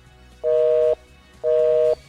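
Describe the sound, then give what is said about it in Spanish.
Outgoing call tone from a messaging-app voice call: two steady, mid-pitched beeps of about half a second each, separated by a pause, over faint background hum. “Vamos a ver otra llamadita a través del WhatsApp. Vamos a la plataforma de WhatsApp.”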